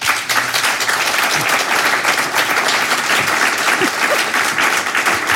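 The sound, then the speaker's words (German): An audience gives warm welcome applause for a German-Iranian artist: dense, sustained clapping from many hands, steady and loud for the whole stretch. “Ich bitte Sie um einen herzlichen Willkommensapplaus für die deutsch-iranische Künstlerin Bettina Pustschi.”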